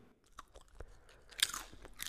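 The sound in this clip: Someone chews and bites into meat while tasting it, giving many quiet crunching and wet mouth sounds in an uneven rhythm, with a sharper crunch partway through.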